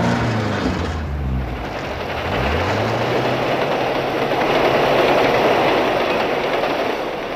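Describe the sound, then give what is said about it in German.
A train rushes past with a sustained, loud roaring rumble of wheels and cars that swells slightly toward the middle and stays strong to the end. “Und der Zug brauste vorbei.”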